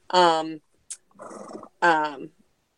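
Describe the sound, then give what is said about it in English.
A horse vocalizes in two throaty, harmonic calls, separated by a short sharp click and a breathy, rasping snort. “it's our horse. Sorry. Yeah. I was gonna say, is that a horse or a dog?”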